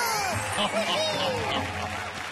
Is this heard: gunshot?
no